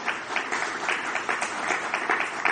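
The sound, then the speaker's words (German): An audience applauds with dense, continuous clapping at a steady, moderate level, a brief unbroken wash of many hands without any single claps standing out. “danke, dass Sie klatschen”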